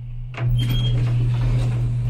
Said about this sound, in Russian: Двери лифта открываются.